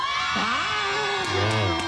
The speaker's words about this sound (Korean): 이따가 라이브 할 때도 그 영상에도 여러분들의 함성 소리가 고스란히 들어갈 거예요. 그 진짜 뜨겁게 반응해 주시면 좋겠고 지금 서로 목소리 들리는 타이밍이니까 한번 제대로 인사 나누시죠. 소리 질러!